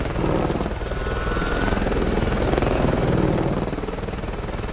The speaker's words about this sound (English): The survivors lie flat in the grass as the chopper swings in low above them. When it's hovering a few feet above the ground, Doyle gets up and runs towards it.